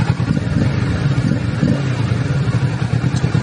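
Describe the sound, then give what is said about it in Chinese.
A twin-cylinder motorcycle engine runs during an early-morning test ride. Its deep, loud, continuous rumble holds steady, with a rough low-pitched throb and no clear revving. “双缸的声音 OK”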